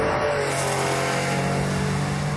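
Engine of an early Porsche 911 with a 2.7 litre engine, circa 1968, a steady, fairly loud mid-pitched drone that holds even for the whole moment.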